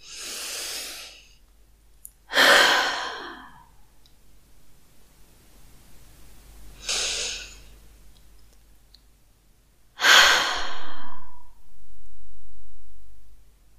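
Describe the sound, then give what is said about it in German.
Several deep breaths taken slowly in a guided relaxation moment: loud, airy rushes of breath separated by quiet pauses, the last ones long and full, with no talk. “Deswegen nimm gerne mit mir gemeinsam jetzt mal ein paar tiefe Atemzüge.”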